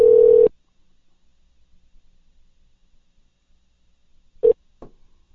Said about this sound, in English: And we are dialing.